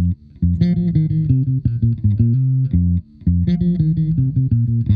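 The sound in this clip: Electric bass guitar plays a song's groove line: punchy low notes in a quick repeating figure, played alone, with the phrase starting over after a short gap midway.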